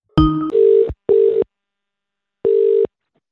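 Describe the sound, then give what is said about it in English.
Telephone dialing and ringing to call a contest winner: a brief electronic dial sound, then three steady ring tones, two in quick succession and the third after a longer pause. “321, dial the number, fingers crossed.”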